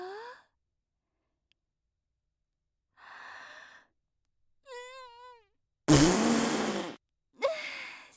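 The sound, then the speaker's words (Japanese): A loud, rough fart lasts about a second, set among a woman's brief breathy sighs and wavering vocal sounds that are separated by silence. “エレベーターにおならの匂い染みついちゃう前に早く帰れるといいわね。”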